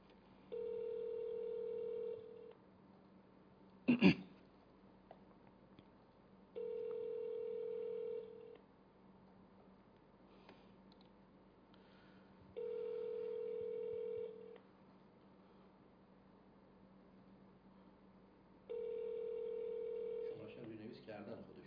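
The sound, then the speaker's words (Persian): Telephone line tone while placing a call: four long, evenly spaced buzzing tones, faint overall, with a sharp click after the first tone and a short burst of noise at the end. “تماس رو شروع خواهیم کرد دوستان عزیز و اولین تماس رو گرفتیم با شبکه کلمه.”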